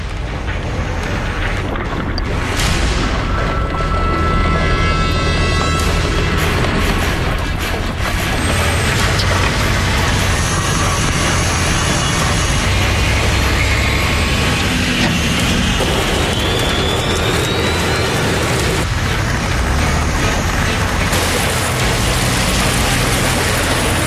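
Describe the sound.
Heavy truck engine roaring as the rig, hauling a 40-ton load, spins out on an icy hill. A loud, steady mechanical rumble runs without a break through the whole stretch, with no voices.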